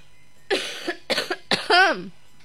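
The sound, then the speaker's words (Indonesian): A few short, harsh coughs, broad noisy bursts in quick succession, ending in a longer voiced throaty sound. “Apa mungkin batuk?”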